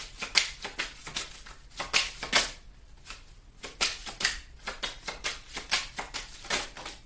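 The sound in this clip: Tarot cards shuffled and drawn from a deck make many quick, crisp papery flicks and rustles in an uneven rhythm of short bursts, with no talking.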